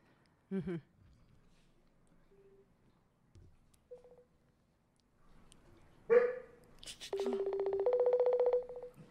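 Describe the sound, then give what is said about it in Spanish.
A phone call being placed: a couple of brief electronic beeps, then a sustained buzzing call tone of about two seconds, with short sounds in between. “Te voy, a te voy a marcar por llamada normal, ¿ok? No por videollamada.”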